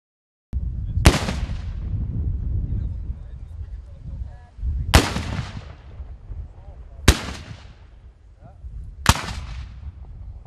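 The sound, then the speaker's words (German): Four loud black powder salute cannons fire at a gathering of German black powder cannon shooters on historic palace grounds. Each sharp, booming report is irregularly spaced over steady low background noise. “Das Böllerschützentreffen des Verbandes der deutschen Schwarzpulverkanoniere vom 19. bis 21. August auf der Königspfalz Tilleda war gleichzeitig Jubiläum und Premiere.”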